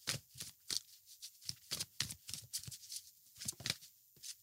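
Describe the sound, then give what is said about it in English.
Tarot cards drawn and handled from a deck: many quick, crisp papery flicks and snaps in an uneven rhythm, with no voices. “Just getting extra cards for you. Just wanted to get the cards before I actually launch into what I want to say.”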